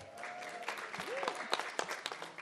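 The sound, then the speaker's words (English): An audience claps as a faint, dense patter of many hands applauding, with a voice briefly heard over it. “Clap for yourselves.”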